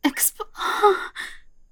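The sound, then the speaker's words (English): A deep breath drawn in and then forcefully expelled: a sharp, breathy intake followed by a longer rushing exhale and a shorter trailing puff of air, with no words. “deep breath and expel. Oh, yeah. And again, deep breath and expel.”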